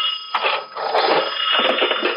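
A telephone rings, its bell sounding as a steady, bright, rattling trill that keeps going for the whole stretch and dips briefly near the start.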